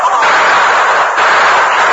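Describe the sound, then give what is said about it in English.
Dense, continuous gunfire from a western shootout, with outlaws trapped in a cabin on a ledge as men fire on it from both ends. The shots blur into a steady, loud crackling roar with no clear gaps between them. “Get your guns and start shooting.”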